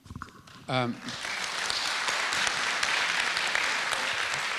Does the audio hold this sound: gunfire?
no

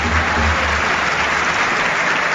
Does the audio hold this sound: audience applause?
yes

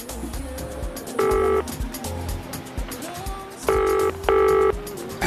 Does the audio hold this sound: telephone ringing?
yes

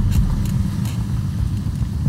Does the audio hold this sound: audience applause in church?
no

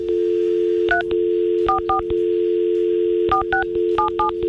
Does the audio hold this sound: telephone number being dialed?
yes

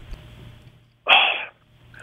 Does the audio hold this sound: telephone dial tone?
no

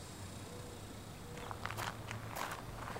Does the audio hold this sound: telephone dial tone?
no

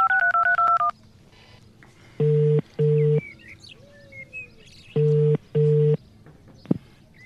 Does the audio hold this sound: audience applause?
no

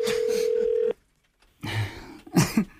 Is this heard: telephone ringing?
yes

